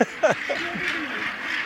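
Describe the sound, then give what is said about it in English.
A gannet colony calls, with a few harsh, rasping cries bunched at the start over a continuous busy hiss of many more birds. “hundreds, thousands of gannets occupying every square inch.”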